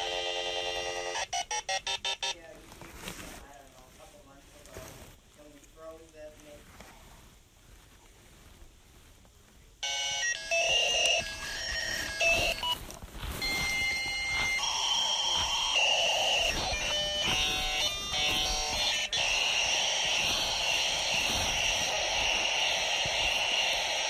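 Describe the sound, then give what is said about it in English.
A dial-up modem dials and connects to the internet: a run of rapid touch-tone beeps, a ringing pause, then loud screeching, hissing handshake tones that shift and settle into a steady harsh data noise. “So I'm going to choose this, press enter, and we will connect to the internet. Dialing.”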